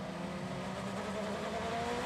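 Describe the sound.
A BMW race car at speed during IMSA WeatherTech SportsCar Championship practice at the Roar, producing a faint, steady engine drone with a continuous buzzing tone and no clear pauses.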